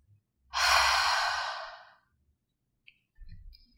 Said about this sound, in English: We'll inhale through the nose to fill up the lungs, and exhale through the mouth, making a sound like fogging a mirror. So it'll sound something like this.